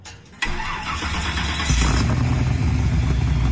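A car engine roars loudly as the car rips down the street, jumping in volume after a short quiet start and swelling again into a sustained, throaty rumble.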